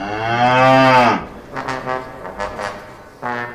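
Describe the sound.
Cow mooing: one long, loud, low moo opens, followed by quieter shuffling and rustling. A second moo begins just at the end.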